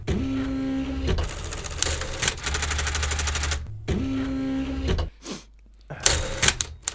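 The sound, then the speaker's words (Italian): Printer printing a page of text: loud rattling mechanical chatter in rapid bursts with a steady whine, a short break, another burst, then quieter gaps before a final flurry of clicks. “Sentite come rotocalcano le rotative?”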